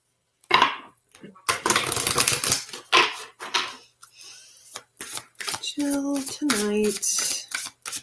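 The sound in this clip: Tarot card decks being shuffled and dealt, giving bursts of crisp riffling and slapping card clicks, with a person speaking over and between them.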